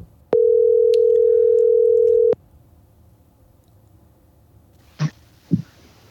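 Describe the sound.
A telephone call ringing on a phone line: one loud, steady, even tone lasting about two seconds, then quiet line hiss broken by two short dull thumps near the end.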